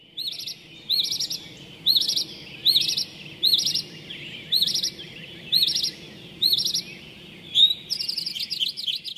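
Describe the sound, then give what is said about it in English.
A mockingbird attempts a mourning dove's call but sings high, chirpy phrases instead of a low coo. The short bursts repeat at a regular pace and crowd together near the end. “birds like the mourning dove have a lower frequency out of range of the mockingbird's capabilities. This is their Achilles heel, so to speak, the unforeseen limit to their abilities.”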